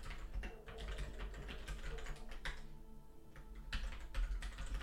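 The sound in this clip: Faint typing on a computer keyboard while a poll is being set up: a fast, irregular run of many light key clicks with no talk.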